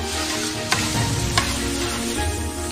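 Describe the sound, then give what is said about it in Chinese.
Chili, Sichuan pepper, ginger slices and bean paste sizzle steadily as they are stir-fried in a wok, a continuous loud frying hiss broken by two sharp metallic scrapes or knocks. “再把辣椒、麻椒、姜片、豆瓣酱一起炒香，”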